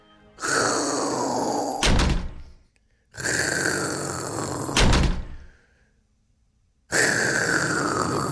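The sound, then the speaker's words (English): A neighbours' sliding door rumbles along its track and slams shut twice in a row. After a pause a third slide begins at the end, and each slam lands as a sharp heavy thud. “That's the sliding door next door that our neighbours think it's great from 5 a.m. to slide and slam approximately 7 to 8 times between 5 and 6 a.m.”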